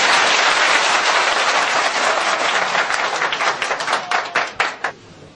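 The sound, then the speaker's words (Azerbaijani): Audience clapping, called for as a toast in Azerbaijani, swells as a dense, loud burst of applause, then thins into scattered individual claps and stops. “öz sağlığına bir əl çalsın.”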